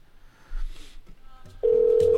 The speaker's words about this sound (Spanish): Ahí está timbrando.